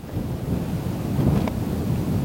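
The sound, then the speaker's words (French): Violent, cold wind blows across treeless steppe near an oil and gas town in southwestern Kazakhstan: a steady, loud, low roar that swells slightly midway and then holds, with no voices. “Il n'y a pas un arbre pour s'abriter du vent violent, froid, qui souffle sur la steppe”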